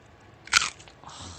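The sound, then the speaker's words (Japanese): One sharp, loud crunch as a fresh, juicy raw celery stalk, just pulled from the plant, is bitten, followed by quieter chewing. “これ誰でもバリバリ食べられちゃうセロリ。”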